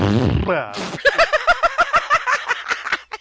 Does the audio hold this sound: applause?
no